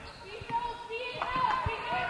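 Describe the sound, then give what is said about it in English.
A basketball is dribbled up the court, and a few faint, dull bounces come through beneath a commentator's running play-by-play and background noise. “The Cats inbounds it to San. San dribbling it up.”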